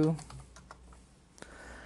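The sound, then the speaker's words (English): Typing on a computer keyboard gives a loose run of light clicks and taps at an uneven pace, with a voice faintly present early on. “Um, and let's type in Ricky Gervais here.”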